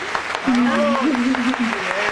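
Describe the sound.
People clap for Manuela, an athlete honoured after the Pan American Games in Mexico. A few scattered claps sound faintly under a sustained, wavering voice that dominates the moment.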